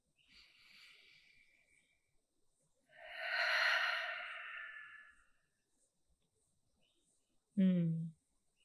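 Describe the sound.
Slow deep breaths taken with hands on heart and belly and eyes closed during a guided calming moment: a soft, airy breath followed by a longer, louder and fuller one, with a brief low voiced sound near the end.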